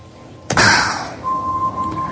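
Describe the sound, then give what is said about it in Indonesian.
A knock on the door of a room: one sharp, loud rap with a short decay, then a faint steady high tone continues alone. “Hingga tiba-tiba ada yang mengetuk pintu ruanganku.”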